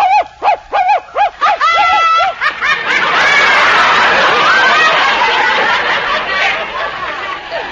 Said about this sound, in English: Now you hear the dog.